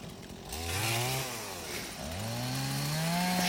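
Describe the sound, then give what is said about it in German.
Chainsaw delimbing a felled tree, its engine revving up in pitch, easing off briefly, then climbing again and holding a loud, high whine to the end. “Auf der Aufnahme sind wir gerade dabei, den Baum zu entasten. Also er ist schon gefällt und jetzt wird er entastet.”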